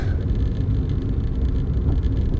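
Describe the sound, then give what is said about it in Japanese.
Steady low rumble of a car being driven on a morning of bad weather, a continuous engine and road drone with no breaks and no talk. “ちょっと早めに家を出て運転している”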